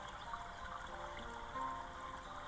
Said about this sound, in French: Et laissez vos pensées couler avec le ruisseau